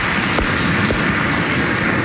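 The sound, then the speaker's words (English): Audience applause from an audience at a service, a dense, even crackle of many hands clapping that stays steady and loud from start to finish, with no talk over it. “I think it is worth a clap.”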